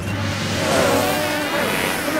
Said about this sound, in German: Deswegen schwirren und summen die ganzen Bienen da drin herum.